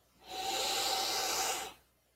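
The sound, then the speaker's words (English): One big, deep breath taken during a tapping exercise. A smooth, airy hiss swells in, holds steady for about one and a half seconds, then fades. It is soft and heard alone, with no talk over it. “Big, deep breath.”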